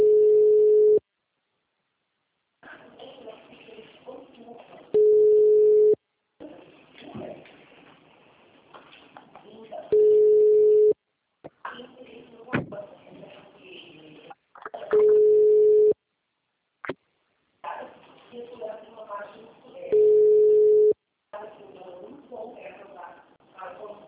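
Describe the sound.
Ringback tone of an outgoing phone call, five long steady buzzing tones evenly spaced, with people talking in the gaps between them.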